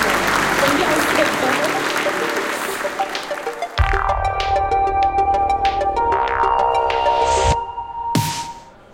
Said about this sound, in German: Und willkommen zur FI Connect 2022 hier auf der Frankfurter Messe. Willkommen zum Manager. Sie dürfen natürlich gerne applaudieren, wenn Sie mögen.